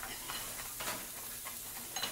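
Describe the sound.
A meal cooks in a pan with a faint, steady sizzle. Light stirring scrapes and clinks rise briefly above it a few times.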